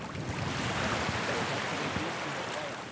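Waves of the incoming tide wash onto a beach at night in the Bijagós archipelago, a steady, dense hiss of surf with no distinct breaks.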